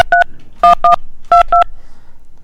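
Telephone keypad dialing tones: six crisp, loud dual-pitch beeps grouped in three quick pairs with short pauses between pairs, heard alone without voices.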